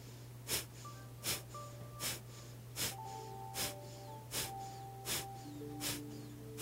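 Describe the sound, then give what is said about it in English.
Kapalabhati yoga breathing, with rapid forceful exhales pushed through the nose: a regular series of nine sharp, puffing bursts about two-thirds of a second apart, each short and breathy, over a faint steady hum. “So it's that big breath in, and then 10 Kapalabhatis.”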